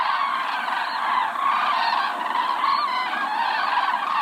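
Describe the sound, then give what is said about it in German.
A flock of migrating cranes calls in a continuous, overlapping chorus of honking, trumpeting cries that stays at a steady, fairly loud level throughout, with no human voices. “So hört sich ein Kranichzug an.”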